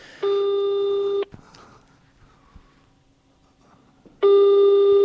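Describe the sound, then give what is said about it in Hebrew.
Telephone ringback tone while placing a call: two loud, steady buzzing rings, each about a second long, separated by a quiet gap with faint rustling. “בוא, אני מתקשר עכשיו לאשר בן עוז.”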